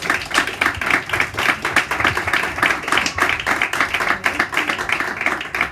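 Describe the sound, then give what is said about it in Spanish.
An audience applauds at a book presentation, many hands clapping in a thick, even patter that holds at a steady, fairly loud level for the whole stretch. “Un aplauso para Nuria, por favor.”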